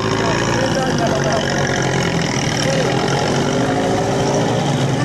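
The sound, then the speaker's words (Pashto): A minivan engine runs while the van carries about twenty passengers along a highway between Kandahar and Herat. A dense, steady drone of engine and road noise holds at an even loudness throughout. “د کندهار هرات پر لوی لار پاره یو سات کې یو ټونس موټر چې له شاوخوا شلو کسانو ډک دی هلمند او نورو لویدیځو ولایتونو ته روان دی”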